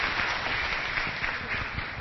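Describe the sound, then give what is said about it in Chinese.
An audience applauds to welcome guests, a soft, continuous patter of many hands clapping at a fairly even level with no talk over it. “那我们再一次掌声欢迎他们，谢谢谢谢”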